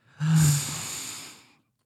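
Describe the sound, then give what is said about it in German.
One deep breath with a loud, airy rush of air that begins abruptly, then slowly fades to silence over more than a second. “wollen wir Natürlich, alle zusammen traditionell alle einmal tief einatmen”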